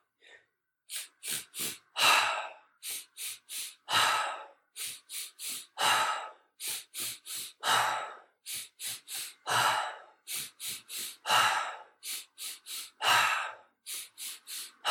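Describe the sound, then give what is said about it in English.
Deep rhythmic breathing in a guided breathing exercise: many quick, forceful breaths through nose or mouth, with a longer, louder exhale to empty the lungs roughly every two seconds. The breaths repeat steadily, with no talking. “So everybody, exhale out through the nose of the mouth, doesn't matter, just empty your lungs.”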